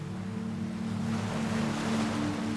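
Gentle waves wash over a sandy shore at night in a continuous, even surf hiss that swells slightly toward the end, with no voices.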